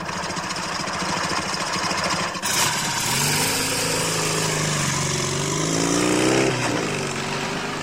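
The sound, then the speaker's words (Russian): Car and motorcycle engines running on the move: a steady, dense mechanical drone whose engine tones swell and slide upward in pitch partway through, with no talk. “Лёлик на машине поворачивает направо, на белую скалу. Казадоев с Семен Семеновичем едут на мотоцикле.”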